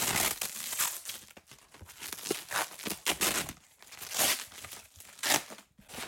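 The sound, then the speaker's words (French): Cardboard archive box being opened: a continuous, fairly faint run of crinkling, scraping and crackling handling noises, broken into many small irregular bursts. “Est-ce que vous pourriez ouvrir un carton euh? Si vous voulez. Surprise pour vous.”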